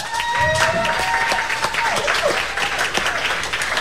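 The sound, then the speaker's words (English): A live studio audience applauding after a local live music performance: loud, dense clapping throughout, with a few whistles cutting through the crowd noise. “Thanks to our live studio audience for participating tonight. Give yourselves another hand.”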